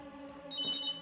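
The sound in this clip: A telephone rings: one short burst of bright, high ringing that starts partway in and sits over a steady tonal background.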